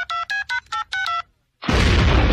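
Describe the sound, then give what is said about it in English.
A mobile phone keypad gives a quick, even run of bright dialing beeps, then a short silence and a loud, rumbling explosion that sets off a bomb. “Damn phone's busted. Maybe I dialed wrong.”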